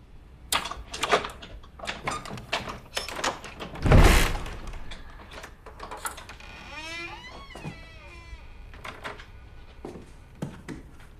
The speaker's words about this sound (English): She unlocks the door and opens it.